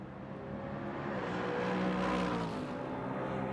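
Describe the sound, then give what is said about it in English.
Race cars passing during IMSA WeatherTech Sports Car Championship qualifying on the Long Beach street circuit, a continuous engine roar that swells toward the middle and eases slightly afterward. “Let's let another couple of cars go through.”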